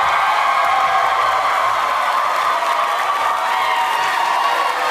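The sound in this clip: A live studio audience at William Jewell College in Kansas City cheers, whoops and applauds, a loud, dense roar of voices and clapping that stays strong and unbroken throughout.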